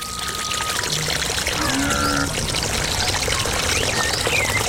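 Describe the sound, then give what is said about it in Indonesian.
Water poured over hands during hand washing makes a continuous, fairly loud splashing and trickling stream that runs steadily throughout with no talk. “Akang cuci tangan dulu ya.”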